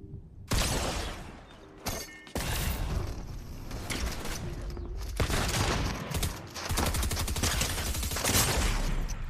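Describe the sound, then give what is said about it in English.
Rapid gunfire in a video game shooter rings out as dense volleys of sharp, loud shots, with a brief lull before the firing resumes and continues to the end. “missed so many shots, but got poor Amir”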